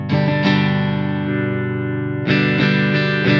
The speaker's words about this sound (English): That's that full-bodied acoustic, but with this electric pickup blended into it. I want to hear full B. Yeah, this is full B.